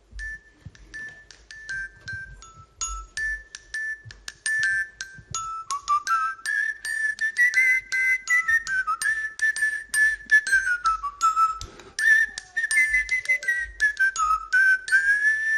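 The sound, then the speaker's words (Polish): Tuned metal bells in a pentatonic set are struck in a flowing melody, many bright ringing notes that start sparse and grow quicker and denser, with no talking. “Co to za instrumenty? To są dzwonki chromatyczne.”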